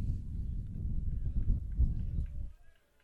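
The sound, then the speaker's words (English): Wind blowing through a baseball press box at a regional semifinal game between Marine City and Lamphere, a low buffeting rumble that gusts unevenly and then dies away near the end. “You hear the wind just zipping through this press box.”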